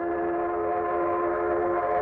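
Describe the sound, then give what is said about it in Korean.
A train arriving, its horn or whistle sounding as a continuous chord of held tones that stays at an even loudness for the whole clip, with no voices. “아, 열차가 오네요.”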